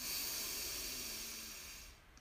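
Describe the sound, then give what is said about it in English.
A long, slow breath during a guided deep-breathing exercise, a faint, steady breathy hiss that gradually fades away. “Breathe in and out. Ah. Deep breath in”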